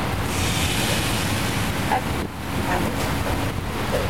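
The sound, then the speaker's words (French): Potatoes fry in a pan in a small modern restaurant kitchen, giving a dense, constant sizzling hiss with scattered crackles that stays loud and even throughout. “je suis en train de frire des patates d'eau sur votre micro.”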